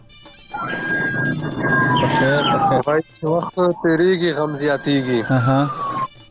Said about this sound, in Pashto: او ستا بیک گراوند کې داسې د امبولانس او د پولیسو د ګاډي شور دی